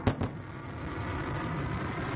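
A New Shepard rocket booster's engine fires as it descends to land on its own. A couple of sharp bursts open into a loud, broad, steady roar that holds throughout.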